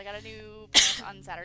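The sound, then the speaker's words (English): A sneeze that comes out like a cough-sneeze, one sudden loud burst of breathy noise that cuts through ongoing conversation, with a voice speaking before and after it. “At least I think that was a sneeze. It was kind of a cough sneeze.”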